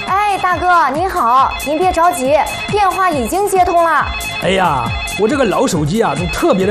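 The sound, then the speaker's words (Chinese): Telephone ringing, heard as a loud melodic ringtone of gliding, warbling tones that carries on without a break, with voices mixed in over it. “大哥，您好，您别着急，电话已经接通了。”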